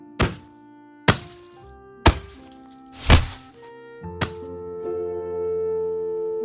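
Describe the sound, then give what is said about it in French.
A wooden stick strikes a person's buttocks, legs and back in five sharp, loud thwacks about a second apart, each leaving a ringing tail. The last blow is weaker, followed by a sustained tone. “Sur ce, Ungtil frappa les fesses d'Ungo avec le bâton.”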